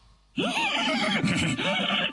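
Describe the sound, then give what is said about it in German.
A horse neighs loudly as it is pulled by the tail. After a brief quiet start comes one long, wavering whinny whose pitch rises and falls for nearly two seconds. “Pferde mögen es eigentlich nicht so sehr, wenn sie am Schwanz gezogen werden.”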